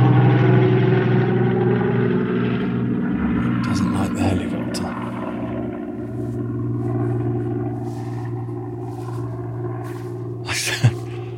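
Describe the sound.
A helicopter flies over a Dorset woodland, a steady loud drone of low harmonic rotor and engine tones that holds throughout with little change.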